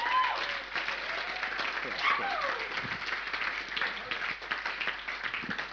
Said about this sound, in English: So can we please put our hands together as I welcome up Hope to the stage.